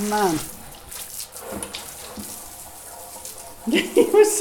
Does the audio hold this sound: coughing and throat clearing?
no